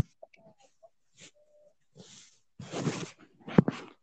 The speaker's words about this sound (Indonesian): Si anjing diem deh.